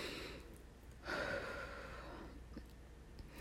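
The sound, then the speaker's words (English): Heavy breathing from a person lying down: one stronger breathy exhale near the start, then softer, steady breaths. The sound is faint throughout, with no talking. “I want to just lay here and bask. But I can't imagine you want to listen to me breathe for like the next 10 minutes.”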